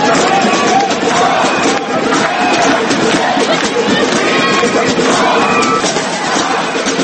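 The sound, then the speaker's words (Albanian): Occupy Wall Street protesters shouting and chanting as a crowd, a loud continuous mass of overlapping voices with no quiet gaps. “Ne jemi 99%, ne jemi 99%, brohërisë të turma e protestuesve.”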